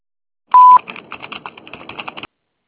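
A telephone voicemail tone: one loud, short electronic beep, followed by a quieter run of many rapid clicking, keypad-like tones.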